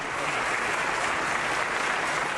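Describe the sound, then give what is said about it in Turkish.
Applause at a political party leader's speech: dense, continuous crowd clapping at an even, loud level from start to end, with no single voice standing out. “Bahçeli Özel'i alkışladı.”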